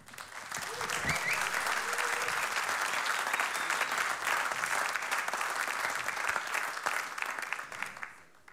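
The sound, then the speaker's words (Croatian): Audience applauds a band at a televised show, swelling within the first second into loud, dense, sustained clapping that holds steady for several seconds before thinning out at the close. “Molim vas, jedan veliki pljesak.”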